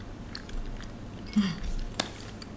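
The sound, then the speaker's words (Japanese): Chewing of warabi mochi made with Tanegashima brown sugar and topped with Kyoto kinako: soft, moist, sticky chewing and small bites, fairly faint, with one slightly sharper squelch partway through. “こちらは種子島産の上質な黒糖を練り込んである、 うん、 京都産のクロスきな粉をかけたわらび餅でございます。”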